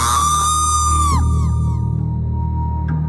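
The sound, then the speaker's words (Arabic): A loud, piercing scream heard over a phone, held as a strong sustained tone whose pitch wavers and dips partway through, with no talk around it. “صوت الصرخة دي يعني أنا اللي واقف بعيد عن التليفون زي ما بيقولوا كده خرم وداني”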